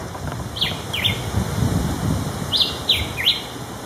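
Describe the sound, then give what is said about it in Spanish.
Song of a Puerto Rican vireo, a small migratory bird: a few short, high, downslurred chirps in two brief phrases, clear above a steady background hiss. “el ave símbolo de Casa Pueblo es un ave pequeñita llamada Julián Chiví”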